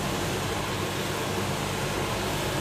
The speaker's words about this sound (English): We are able to craft this roll for him thanks to having an automated coffee roasting machine. So actually the recipe that we have is already inside, and then James is helping me with the hands and legs to actually roast the coffee beans.